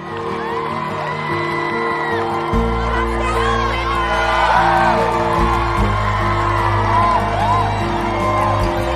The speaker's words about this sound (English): A group of women waving banners gather round to cheer them on.